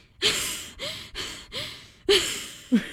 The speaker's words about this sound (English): Okay, she's out of breath.